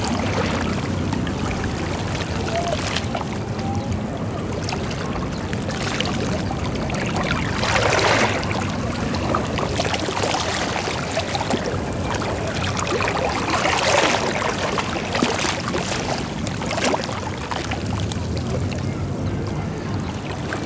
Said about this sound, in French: et la mer incessante au milieu de cette ville touristique.